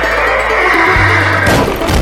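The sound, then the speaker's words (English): A horse neighs with a loud, sustained, strained whinny, followed by a rough, noisy burst near the end. “Another time, Jack's horse broke through the stable door,”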